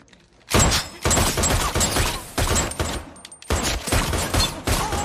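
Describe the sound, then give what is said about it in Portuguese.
Gunshots hammer a bulletproof suit as two shooters fire at it, arriving as many rapid, loud bursts of fusillade with short gaps between volleys, sharp cracks layered over a dense, ringing wash. “Toma, vai, vocês dois, mandem bala.”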